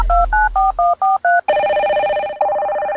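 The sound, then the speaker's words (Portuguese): Telephone keypad dialing tones from a phone call being placed: six short, evenly spaced tone bursts in quick succession, then a steady continuous line tone that shifts slightly near the end and continues alone to the close. “Liga pro R7 aí.”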